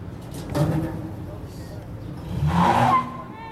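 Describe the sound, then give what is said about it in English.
A vehicle tugging a defaced statue down at a rally: engine noise swelling briefly, then a louder revving surge near the end, heard under talk. “And with a tug from a vehicle, down it comes.”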